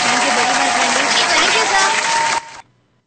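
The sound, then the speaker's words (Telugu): Audience applause after a singing performance: a dense, steady wash of clapping with crowd voices mixed in, holding at full level for over two seconds before cutting off sharply and trailing into quiet. “Claps claps claps కొట్టేస్తున్నా మేము ఇప్పుడే.”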